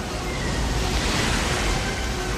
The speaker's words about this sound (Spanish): Caen sobre los rápidos de un río que los zarandea.